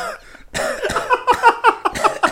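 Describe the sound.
Harsh coughing after smoking: a rapid fit of many short, rough coughs in close, uneven succession, loud and strained, with no talk over them.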